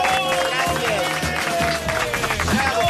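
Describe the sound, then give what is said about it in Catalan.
Audience cheering and shouting bravo amid clapping at a competition show, a dense mix of raised voices and applause that stays loud throughout. “No, crec que han dit bravo. Bravo, ha dit bravo.”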